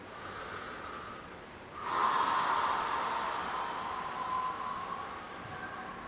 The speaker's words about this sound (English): Okay, taking a big breath.